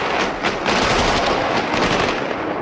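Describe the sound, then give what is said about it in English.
Inserted AK-47 gunfire sound effect, a continuous rapid burst of automatic rifle fire that stays loud and dense for the whole stretch, with crackling shots blurring together and no voices. “And that's it. Just some AK-47 fire, nothing else.”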